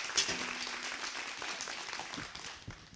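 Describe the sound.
A church audience applauds to welcome a pastor to speak, producing a moderate, steady patter of clapping hands with a few louder claps near the start and a slight fade toward the end.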